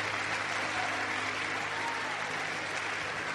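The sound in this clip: Congregation applauding for the Lord during a church service: a sustained, dense wash of clapping that holds steady and even in loudness for the whole clip without breaks.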